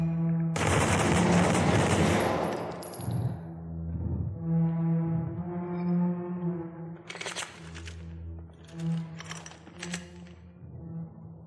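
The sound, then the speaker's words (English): Gunfire from a video game bursts out in a dense rattle of shots, followed by tonal effect sounds and a few further short blasts. “Shots fired!”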